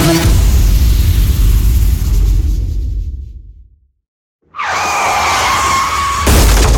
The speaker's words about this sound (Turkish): Trafikte küçük bir kaza, büyük bir masrafa dönüşmesin.